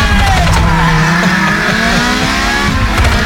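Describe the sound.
A voice imitates a car engine revving: a loud, continuous buzzing drone with wavering pitch throughout, like a racing car accelerating.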